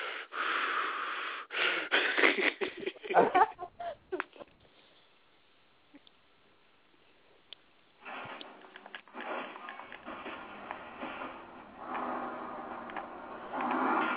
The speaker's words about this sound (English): That's a deep breath. You know, like a Lamaze class. Breathe, really?